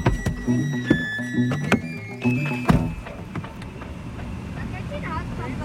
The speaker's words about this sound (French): Ce que vous entendez, c'est le bruit de la clim dans la voiture, parce qu'on a pris la voiture